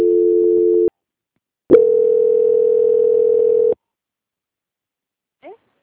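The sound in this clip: Telephone tones on a call-centre line as a call is transferred: a steady dual-pitched tone for about a second, then silence, then a longer steady single tone for two seconds, then a brief faint rising blip.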